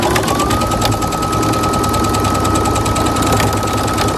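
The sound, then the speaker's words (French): A sewing machine runs steadily in a sewing and craft workshop. Its whirring, buzzing drone stays loud and even the whole time, without any pauses and without anyone speaking. “Ça, c'est le bruit de la machine à coudre”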